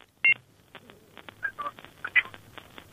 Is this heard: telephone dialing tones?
yes